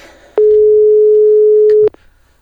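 A single steady telephone line tone from an outgoing call that goes unanswered: one long, even, mid-pitched hum lasting about a second and a half, with faint clicks at its start and end.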